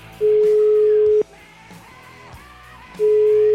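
Telephone ringback tone heard while placing a call: a steady mid-pitched beep holds for about a second, then a pause with faint background sound before the same tone starts again.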